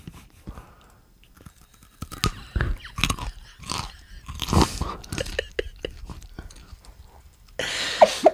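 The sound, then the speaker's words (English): Crisp, loud crunches of teeth biting into a raw carrot close to the mic, followed by wet chewing that comes in several irregular bursts with no talking. “I am now going to bite into this carrot. Notice the saliva in my mouth.”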